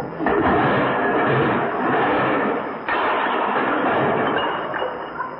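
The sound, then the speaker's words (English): A loud, sustained crash from a bomb sight dropped on the floor: a dense, rough roar fills the whole clip, dipping briefly near the middle before surging again, with no talk over it. “Oops, I dropped it.”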